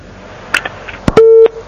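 A telephone line tone on a call that has not yet connected: a few sharp clicks, then a short, steady, mid-pitched tone that stops abruptly.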